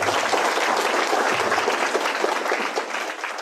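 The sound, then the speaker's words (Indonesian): Applause from an audience at a talk, just before the first session begins, a dense, steady clapping that fades slightly toward the end. “Saya kira aplaus dulu lah sebelum kita mulai.”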